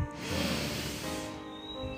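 One soft exhalation during a guided meditation: a quiet, breathy rush of air that lasts about a second, then fades into near silence.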